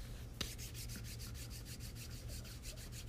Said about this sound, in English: When you are fully seated and the mind is totally externalized, rub the palms against each other and slowly place the palms on top of closed eyes.